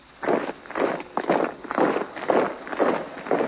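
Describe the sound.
Marching footsteps on a road as a comedy sound effect: a steady, evenly spaced series of about seven thudding steps in a regular cadence, heard on their own.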